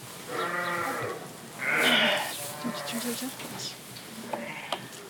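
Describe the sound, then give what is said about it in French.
Lambs bleating on a sheep farm during lambing, a few wavering, nasal bleats that overlap and vary in pitch, the longest and loudest near the middle, over a soft background hiss. “Chaque agneau, en fait, on désinfecte le nombril.”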